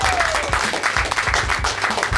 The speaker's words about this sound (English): Can we get a round of applause, ladies and gentlemen?